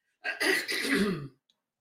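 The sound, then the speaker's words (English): A single throat clearing, one harsh rasping burst lasting about a second, heard alone and followed by a tiny faint click. “I have to clear my throat.”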